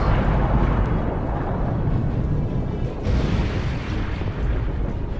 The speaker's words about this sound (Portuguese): Com aflição e dor, dispara um raio mortal, mesmo em cheio de luz da barata gigante, ficando tudo carbonizado.